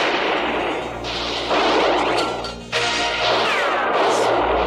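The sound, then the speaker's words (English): Heavy machine gun and shotgun fire from a film shootout forms a dense, loud, continuous roar with no clear gaps between shots, dipping briefly just past the middle. “Machine guns and everything. Shotguns, machine guns.”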